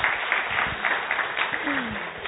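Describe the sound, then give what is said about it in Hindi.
An audience claps for themselves in a dense, steady burst of applause that holds at an even level throughout, with a voice briefly heard over it near the end. “चलो अपने लिए ताली बजा सकते हैं आप।”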